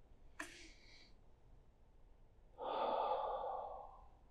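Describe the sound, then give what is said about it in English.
A group draws a deep breath together during a Bible teaching: one short, sharp inhale, a quiet pause, then a long, broad, breathy exhale that swells and slowly fades. “Can we take a collective breath?”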